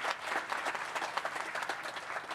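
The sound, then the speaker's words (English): An audience applauds the agriculture secretary with steady, dense clapping that holds at an even, fairly loud level for the whole stretch, with no voices rising above it. “So please put your hands together again for our great secretary.”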